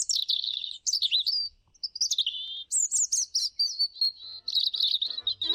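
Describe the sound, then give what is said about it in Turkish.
A European robin sings a long series of high, thin, warbling phrases, each varying in pitch and separated by short pauses, clear and alone. “bugün Kızıl Gerdan'ın şarkısıyla bitirelim”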